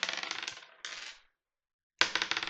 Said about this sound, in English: You're going to go with 2 dice.